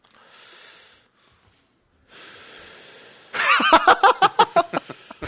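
Someone demonstrates an unusual breathing technique. Two long, hissing breaths separated by a pause are followed by a loud run of many quick, rhythmic puffs, like snorting or panting, with no talk.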